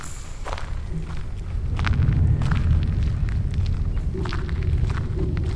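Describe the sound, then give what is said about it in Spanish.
Footsteps going down stairs into the family crypts of a house. They make a steady, muffled shuffle over a low rumbling bed, with scattered brighter scuffs and no voices. “le di una a Fortunato y bajamos por las escaleras que daban acceso a las criptas de la casa”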